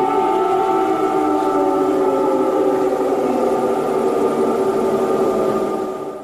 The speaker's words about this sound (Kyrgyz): Дагы бир көңүл бурчу жагдай бул аба чабуулу тууралуу эскерткен сиреналардын добушу.